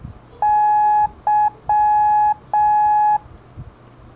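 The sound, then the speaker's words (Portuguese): Morse code beeps for the letter Y: a clean, steady electronic tone sounding long, short, long, long with brief gaps, loud and alone. “E a letra Y é da, di, da, da, termina com som longo,”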